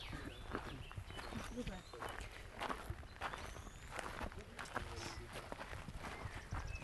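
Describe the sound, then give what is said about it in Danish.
Footsteps walking up a path in a medicinal herb garden: many steady, crunching steps over a dense, rustling outdoor background. “Ja, vi går op ad stien her.”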